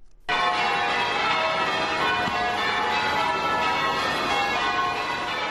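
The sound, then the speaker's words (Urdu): Church bells ring across the churches of Charleston, a dense, continuous metallic clangor with rich overlapping tones that starts abruptly and stays loud and sustained throughout. “Charleston شہر کے تمام گرجا گھروں میں گھنٹیاں بجتی رہیں”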